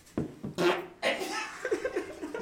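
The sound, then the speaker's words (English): A fart blown straight into a microphone, heard as several loud, rough, low sputtering bursts with short gaps between them, trailing into a stuttering flutter toward the end. “just farted in the mic”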